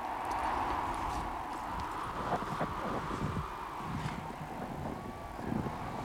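Horse hooves clip-clopping in a snowy outdoor scene, a few scattered knocks over a steady rushing background noise, moderately faint and without voices.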